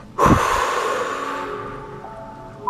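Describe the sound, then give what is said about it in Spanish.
A deep exhale through the mouth during guided breathing meditation: one long, soft, breathy whoosh that starts abruptly and fades over about two seconds, with faint sustained musical tones underneath. “inhalar profundo por nariz y exhalar por boca. Una vez más. Exhalo por boca.”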